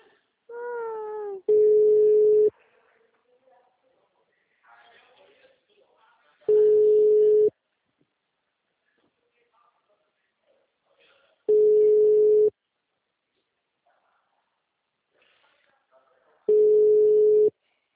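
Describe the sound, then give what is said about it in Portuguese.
Telephone ringback tone from a call to a number that goes unanswered: four steady, identical mid-pitched beeps, each about a second long, repeating at an even interval of roughly five seconds with quiet gaps between them. “Alô, bom dia. O número não responde.”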